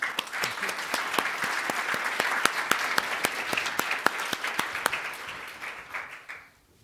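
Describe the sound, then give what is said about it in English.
Audience applause welcoming a keynote speaker at a conference, a long burst of many hands with crisp individual claps standing out, holding steady before tapering off and fading to quiet. “You already gave me an applause.”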